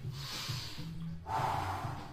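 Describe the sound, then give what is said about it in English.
A deep breath is drawn in during a stretching exercise, lying on a Bosu ball to open the rib cage. The inhale is soft, airy and faint, and grows slightly fuller and louder partway through. “I'm breathing in deep.”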